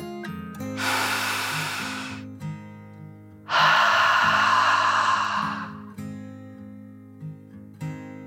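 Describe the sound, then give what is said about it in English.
A child's slow, deep breath in and then out during a calming bedtime meditation: two long, soft airy rushes, the inhale and then a slightly louder exhale, heard over steady low background tones. “Then she took one last deep dragon breath in and out.”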